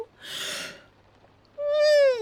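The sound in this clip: A yawn: a soft breathy intake of air, a brief quiet gap, then a drawn-out voiced tone that holds steady and sags lower in pitch as it trails off, fairly faint overall.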